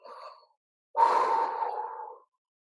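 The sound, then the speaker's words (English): A person takes an audible breath with no talking: a brief, soft breath, a pause, then a longer, sigh-like breath that stays even before stopping abruptly. “Let me take a breath.”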